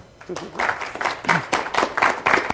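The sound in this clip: Applause from an audience welcoming a speaker at a talk on judicial records, a dense, evenly pattering wash of clapping at moderate loudness, with a voice briefly heard underneath near the start.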